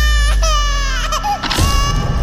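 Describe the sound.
Crying sound played on a radio segment about why people cry: high, wavering infant-like sobbing cries that give way to a rougher, noisier sound near the end.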